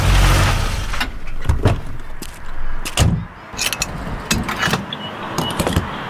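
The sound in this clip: Fuel is pumped into a car's gas tank at a pump. A low rumble opens, then a series of sharp mechanical clicks and clunks sound at irregular intervals, with no voices.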